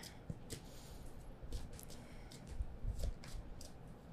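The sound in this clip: Tarot cards being shuffled and drawn make a faint, irregular run of soft papery flicks and light taps spread across the whole stretch.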